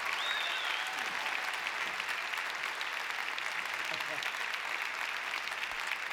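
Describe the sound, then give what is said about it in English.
A crowd applauds a country performer from Bandera, Texas, as he comes out on stage, a continuous, even wash of clapping that fills the whole clip with voices faintly mixed beneath it. “Have the folks give a big hand now”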